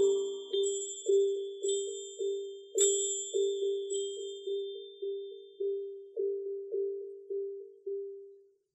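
A small hand bell rings over and over in a steady rhythm, many clear, bright metallic strikes, each ringing out briefly before the next.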